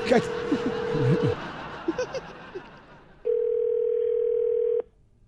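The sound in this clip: Ringback tone while calling someone on the phone: two steady tone bursts, the first under people laughing and talking, the second about one and a half seconds long and heard alone.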